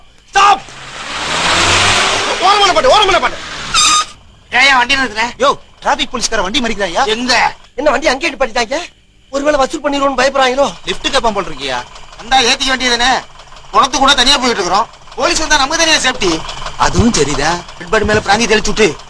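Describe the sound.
A vehicle approaches with an engine revving in a loud burst of broad noise, then voices talk and sing almost continuously over fainter background sound.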